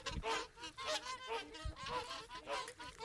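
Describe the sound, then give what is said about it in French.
Geese honking, many nasal, overlapping calls in an uneven rhythm, fairly faint throughout. “Ça fait un peu ouais, basse-cour là, mais c'est des oies quoi.”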